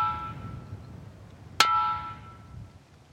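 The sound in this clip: A ringing rock gong in a remote area struck once with a sharp metallic clang, then a bright tone that sustains and slowly fades; a faint ringing tone is already present before the strike.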